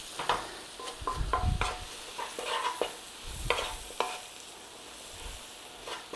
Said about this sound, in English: we want to be blooming the curry powder in the oil. Release the oils of the curry powder. Give it a little stir over.